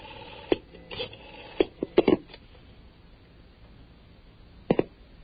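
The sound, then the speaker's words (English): A telephone number being dialed over a phone line produces a few short, tinny clicks and bursts in an irregular cluster early on. A long pause follows, then a final quick pair near the end. “let's see what happens when we try dialing a number in the 706 area code.”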